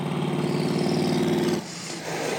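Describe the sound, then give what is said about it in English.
Early Bronco engine driving in reverse and accelerating hard: a loud, steady mechanical drone with strong low harmonics that suddenly drops in level and thins out about two-thirds through, then continues more quietly. “i drive forward a little bit throw it in reverse and step on it and Here's the video.”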